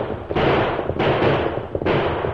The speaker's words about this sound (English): The three crooks were passing a grove when shots rang out behind them.